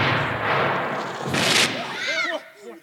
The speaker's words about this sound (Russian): Боже мой, опять стреляют.